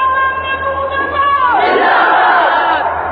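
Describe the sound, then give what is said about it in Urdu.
A crowd at a speech gathering shouts a slogan in unison. It is a loud, sustained roar of many voices that swells about halfway through and stays dense to the end. “یہ میری اس بات پہ نعرہ ہے کہ نعرہ مت لگاؤ”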